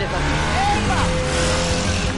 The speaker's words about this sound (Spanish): Esta máquina me adora, chaval. ¿Ah, sí? Con la moto recta, en línea.